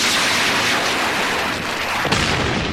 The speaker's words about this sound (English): Iraqis again, launching Sidewinder missile.